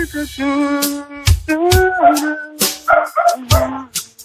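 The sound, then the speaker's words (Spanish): A dog howls and whimpers along with singing, holding sustained, wavering pitched tones broken by several sharp, loud bursts. “Hay un perro que también está cantando.”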